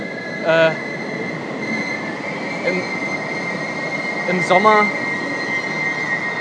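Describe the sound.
A train rides on rails with a steady low rumble and a constant high hum, while the wheels squeal twice: a short shriek early on and a longer, wavering one later.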